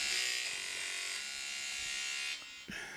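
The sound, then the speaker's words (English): An electric razor buzzes steadily as someone shaves, a bright, constant drone that cuts out near the end, then briefly restarts. “What is that? Why are you doing that? He's shaving. Are you shaving?”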